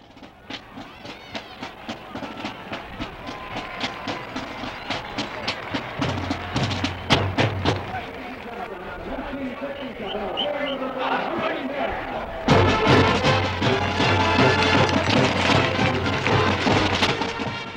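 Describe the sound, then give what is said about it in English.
A 1967 recording of a redesigned university marching band's debut performance, noisy and hissy, with a run of evenly spaced percussive hits, then a louder, full passage that holds to the end. “That was the sound of the revised band's debut performance under Thrakil in 1967.”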